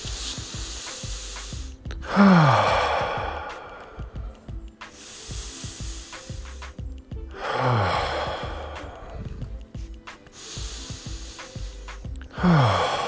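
Slow, deep breaths in and out come as several long, airy rushes of air spaced a few seconds apart, with a steady, soft tonal background underneath.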